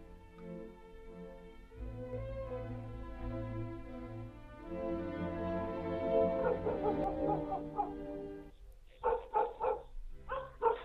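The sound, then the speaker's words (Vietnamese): A dog barks at night by the porch of a village house: a run of several quick, sharp barks near the end, after a long, sustained tonal stretch. “Tiếng chó sủa nhấm nhằng đầu hè khiến cho anh Mạnh không khỏi khó chịu. Ngày làm việc ngoài đồng đã mệt lử ấy vậy mà hôm nào cũng bị tiếng chó sủa đêm làm cho thức giấc.”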